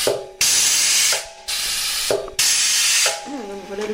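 Loud pneumatic hissing from a bottle capping machine on a bottling line, where bottles are capped one at a time by hand. Three long, broad hissing blasts are separated by short gaps filled with a steady mechanical hum.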